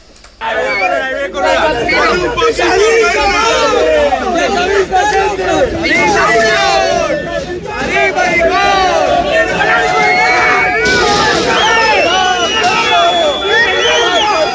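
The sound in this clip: Football fans at an airport jeer and whistle as players arrive. After a quiet start, a loud mass of shouting voices and shrill whistles breaks in suddenly and keeps going throughout.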